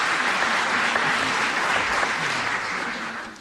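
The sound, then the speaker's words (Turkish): Sustained audience applause for kaval and mey players after a Turkish folk song performance: dense, steady clapping that stays even throughout and tapers slightly at the very end. “Onları da gönülden alkışlıyoruz.”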